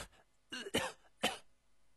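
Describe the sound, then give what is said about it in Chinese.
A character is seized by a violent coughing fit in a drama: a few harsh, hacking coughs come in quick succession, fairly faint, with no talk over them. “冯松涛突然一阵剧烈的咳嗽”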